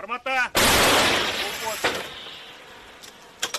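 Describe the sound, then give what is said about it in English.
A single loud blast from an old American M101 howitzer, a World War II-era gun now used by Ukrainian forces, follows a brief voice and trails off in a long, rumbling decay. “Their gun is an old American howitzer, M101. This same type of weapon was used in World War II. Now, Ukrainian forces rely on it to stop Russian troops.”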